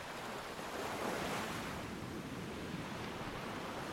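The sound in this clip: Ocean surf and sea spray rush in a continuous, broad hiss of breaking water mixed with wind, steady and unbroken at a moderate level.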